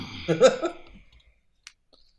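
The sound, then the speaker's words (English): People coughing after inhaling smoke: a short, rough cluster of a few coughs, followed by quiet and a couple of faint clicks. “just holding each other, coughing in action”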